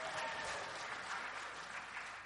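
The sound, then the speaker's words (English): Applause from a church audience for a deacon, a dense, steady wash of clapping that stays loud and even from start to finish with no voices standing out. “Big round of applause for Kevin Yo.”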